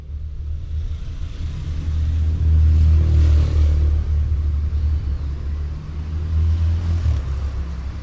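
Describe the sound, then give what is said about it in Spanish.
A car engine rumbles low and steady as the car leaves a garage and the driver presses the accelerator. The sound swells in loudness, eases off, then builds again, with no voices. “Enciende el motor rápido y saca el auto del garage. Sale del auto. Cierra con doble llave la puerta del garage. Vuelve al auto y pone seguros en todas las puertas. Pisa el acelerador. Y se va.”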